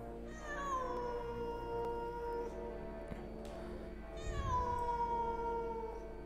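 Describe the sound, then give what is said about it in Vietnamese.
Cats yowl through the night in two long, drawn-out cries with a gradually falling pitch. The sound is faint and mournful, with a quiet gap between the first cry and the second. “Đêm hôm đó, tiếng mèo kêu cứ văng vẳng kéo dài suốt cả một đêm, nghe não ruột lắm.”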